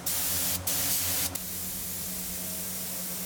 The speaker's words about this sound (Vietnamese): Chỉ với chiếc máy phun sơn này, một ngày có thể hoàn thiện hàng trăm sản phẩm.